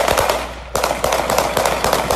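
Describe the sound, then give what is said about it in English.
Gunfire played from a video, bullets spraying in a loud, dense stream of rapid sharp cracks that keeps going without a break. “I'd be at the gun range. I ain't never see bullets come out like that.”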